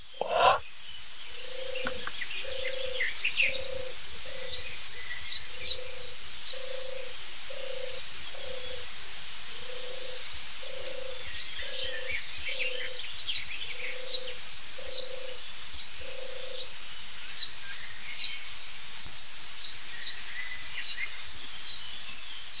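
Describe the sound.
European turtle dove cooing: a long series of soft, low, purring coos repeat at a steady, even rhythm, while other birds chirp faintly and high-pitched throughout.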